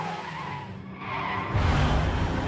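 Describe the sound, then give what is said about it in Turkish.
A car skids and spins on a slippery road after a tire bursts, making a broad, hissing screech that swells in loudness and gains a heavier low rumble in the second half. “Teker patlarken arabanın altından kıvılcımlar çıkıyor. Kayan yolda savrularak dönen arabanın direksiyonunda Nick”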